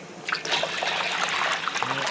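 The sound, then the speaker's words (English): Water boiling in a large pot on a stovetop, a dense and steady bubbling and gurgling that stays fairly quiet and even throughout. “Nina Kavasnikov stands over a large pot of water on her stovetop. That's a boiling.”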